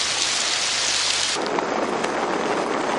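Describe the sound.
Heavy rain falls with thunder: a dense, steady, loud hiss of rain, with a low thunder rumble underneath at first that then drops away while the downpour continues.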